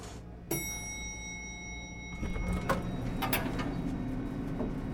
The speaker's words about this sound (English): Here, let's take the elevator here.